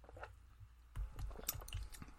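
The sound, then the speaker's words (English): Wet slurping and sucking of a pina colada drawn through a straw, a few gurgling, crackly pulls following a quiet start, with no one talking. “Got my beautiful straw. So let's dive in and sample our pina coladas.”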